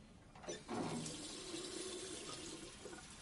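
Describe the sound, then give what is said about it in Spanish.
Tap water splashing as a man cups it onto his bald head, a steady hissing rush with a brief louder surge near the start. “Se echa agua en la calva.”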